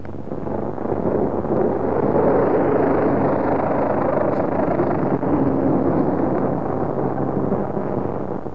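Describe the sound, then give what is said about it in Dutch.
A helicopter flies overhead on its way to the drop site, a steady, loud, rumbling drone that holds evenly from start to finish. “hier vliegt een helikopter over, die vliegt naar de afwerp.”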